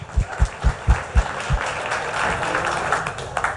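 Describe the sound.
Audience applause welcoming a professor to the stage at an event: a steady wash of clapping, with several dull, low thumps standing out in the first seconds.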